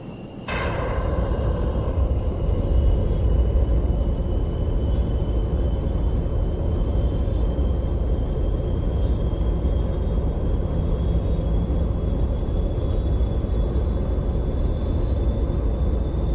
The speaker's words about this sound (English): Put your throttle all the way up until the afterburners kick in. We'll wait for your aircraft to accelerate.